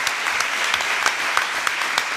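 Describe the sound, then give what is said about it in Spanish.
Loud, steady audience applause at a live show greeting a banjo teacher, dense overlapping claps running continuously throughout. “Un aplauso.”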